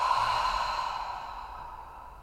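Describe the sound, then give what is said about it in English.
A slow, deep breath, heard as one long airy exhale like a sigh that fades gradually over about two seconds, soft and alone with no talking. “All right, take a deep breath in through the nose and out through the mouth.”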